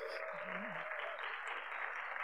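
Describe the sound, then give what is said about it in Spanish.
Congregation applause at a church gathering, a faint, steady hiss of many hands clapping that holds evenly throughout, with a brief tonal voice-like sound early on. “Denle un aplauso a Dios por la vida de ellos, por favor.”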